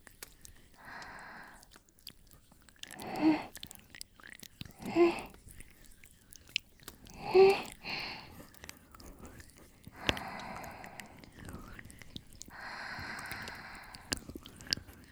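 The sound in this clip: Soft rubbing and squishing of an ear massage, with a few louder moist squeezes standing out among faint, continuous friction sounds.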